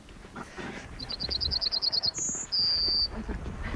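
A bird sings in a row of trees beside open fields near Renkum: a rapid run of short, high notes, then two drawn-out whistled tones to close the phrase, over faint outdoor background noise.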